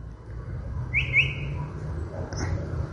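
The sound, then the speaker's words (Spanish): A chalk-browed mockingbird, or calandria, singing and mimicking other birds: a few brief, high whistled notes stand out over a steady low rumble of background noise. “Es un mimus. Está copiando, está hablando distintos lenguajes. Calandria, mimus saturninus.”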